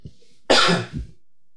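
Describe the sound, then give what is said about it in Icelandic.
A single loud, harsh cough from someone who has had a lingering cough, followed by a shorter, softer second burst, then quiet. “Ég er búin að vera haldinn í hóstað mjög lengi sko. og ég er bara að hósta núna kannski”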